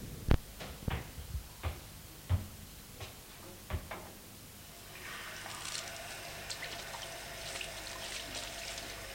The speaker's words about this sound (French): Elle prend son mouchoir, va à une fontaine publique le mouiller.